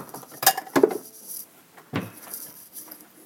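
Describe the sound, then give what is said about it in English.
Ceramic bowls, pots and cutlery clinking in a kitchen as a bowl is fetched to taste soup, with a few sharp clatters separated by quiet gaps. “Now let me get a bowl here to give it a little taste test.”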